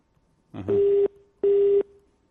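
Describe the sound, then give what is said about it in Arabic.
A phone busy tone sounds after a call drops: two short, identical steady beeps at a mid pitch, evenly spaced, alone without talk. “انقطع اتصال من عندك، حاول ولا بكرة إن شاء الله.”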